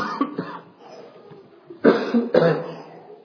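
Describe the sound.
Coughing after swallowing a bug: a few harsh, throaty coughs, with two short ones early and two louder, rougher bursts near the end.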